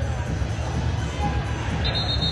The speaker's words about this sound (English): Big crowd today, right at 3,000 this afternoon.